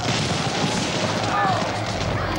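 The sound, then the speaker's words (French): Dramatized cannon fire as Bonaparte's guns fire on royalists at the Saint-Roch church in Paris on 13 Vendémiaire 1795, a dense, unbroken roaring din with no single shot standing out. “Bonaparte faisant tirer sur les royalistes euh, à Paris, à l'église Saint-Roch”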